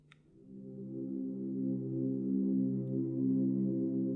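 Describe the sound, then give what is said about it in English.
Sleepy ambient music bed of soft, sustained low chord tones that blend into a steady, gently swelling drone. It plays quietly and alone, without beats or voices. “I've made some nice, sleepy music that sounds like this.”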